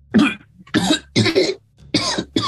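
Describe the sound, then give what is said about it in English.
Harsh, throaty coughing from someone bringing up black bile and sludge: five strong bursts in quick succession with short gaps between them, loud and with no talk. “coughs up more black bile, more black sludge.”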